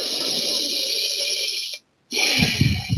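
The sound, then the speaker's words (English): Audible breathing during a guided breathing exercise, in through the mouth and out through the nose: a long, hissing breath, a brief moment of silence, then another breath with a rougher, lower rush of air. “Full body breaths. In-mouth, out-nose. In nose, out nose.”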